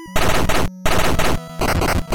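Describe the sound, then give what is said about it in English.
Rapid gunfire from shooting bandits in the video game Gun.Smoke, loud dense electronic bursts with steady tones, running almost continuously with a few short breaks. “Two more bandits approach from the top right-hand side of the screen at this point, so we maneuver over to the left-hand side, fire off to the right, and put two more bandits down for a dirt nap.”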